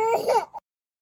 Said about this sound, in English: What you just heard were her first cries just as she was being cleared by the emergency pediatric team